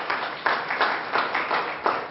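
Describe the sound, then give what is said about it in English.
An audience claps hands in praise during a church sermon. The clapping is dense and steady, with rhythmic pulses swelling every few tenths of a second for just over two seconds. “So give Him a hand clap of praise, if you would, please.”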